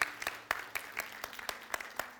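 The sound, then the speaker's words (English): Steady rhythmic clapping from a church audience, about four sharp claps per second in an even beat for the whole stretch, with softer scattered claps between the main ones. “Y'all give them a hand again.”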